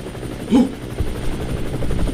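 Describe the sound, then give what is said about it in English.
A shot-down helicopter's rotor keeps chopping in a fast, steady, loud thudding rhythm, with one brief louder burst early on. “The chopper's still chopping, even though it's been shot down.”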